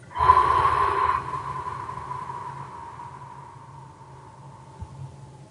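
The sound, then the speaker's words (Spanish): One deep, forceful breath taken during a stress-relief breathing exercise: a strong rush of air at the start that quickly thins into a long, faint, fading breathy tail. “Una vez más, inhala. Un poquito más. Un poquito más. Exhala.”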